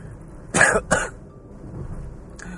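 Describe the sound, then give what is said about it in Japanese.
A person clears their throat in two short, harsh bursts close together, then near quiet follows with only low background hiss. “途中の咳払い申し訳ございません。”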